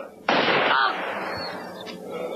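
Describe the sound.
A single gunshot sound effect goes off in an audio drama. It is a sudden loud crack followed by a dull, fading rumble.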